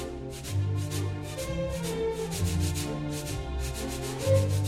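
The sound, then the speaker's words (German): Sandpaper rubbed as a rhythmic instrument, as used in concert, producing soft scratchy hissing strokes in a regular pulsing pattern, fairly faint throughout. “es kann zum Beispiel Sandpapier sein, hatten wir letztens im Konzert auch. Wird als rhythmisches Instrument eingesetzt, ist aber eigentlich ein Geräusch.”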